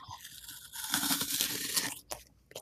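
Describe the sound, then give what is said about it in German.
A bite into a crisp green apple makes a loud crunching snap, then a few shorter crunches follow. There is no talk. “Ich habe hier so einen grünen Abbel und da beiße ich jetzt einfach mal rein.”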